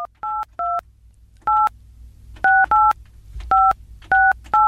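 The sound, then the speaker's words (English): A telephone number is dialed as a quick series of sharp touch-tone beeps in uneven clusters, each a short two-note electronic chirp, loud over faint background noise. “Listen, like, I know somebody who would know. Let's give him a call.”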